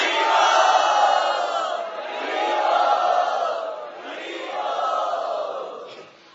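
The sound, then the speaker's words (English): A crowd loudly chants Hari Bol together in welcome for a guest at a Sunday festival. There are three long, loud swells of many voices, each building and then fading before the next, with the last trailing off briefly. “Let us show our gratitude and offer our welcome to my dear God brother Sarvabhauma Prabhu by very loudly chanting Hari Bol.”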